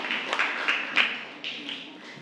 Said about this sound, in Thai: ปรบมือให้กับกลุ่มที่3ด้วยค่ะ